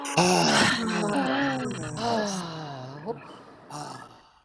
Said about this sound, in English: can we all unmic and do a deep breath together? I feel like we need it.